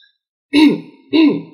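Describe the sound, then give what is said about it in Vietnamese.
A man clears his throat twice with two short, loud, voiced coughs about half a second apart, heard alone after a moment of silence. “Anh thôi cười, ho hai tiếng làm cho cổ họng thâm suốt.”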